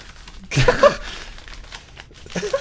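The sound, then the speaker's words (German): Gift wrapping paper is torn open in a sudden loud rip and crinkle, followed by softer, lingering rustling and crumpling of the paper. “Aber schönes Geschenkpapier. Mach doch mal auf, mein Lieber.”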